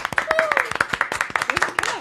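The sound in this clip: Applause from a small group, quick uneven claps that stay distinct rather than blending, with a cheering voice rising over the clapping.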